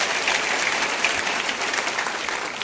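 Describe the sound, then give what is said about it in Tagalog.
Applause for the mothers at a Mother's Day church service, a steady, dense patter of many hands clapping that stays level throughout. “Sige po, palakpakan natin ng Diyos sa buhay natin mga nanay.”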